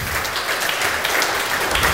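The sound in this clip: Audience clapping during a heated political discussion: brief, steady applause from many hands at an even, moderate level.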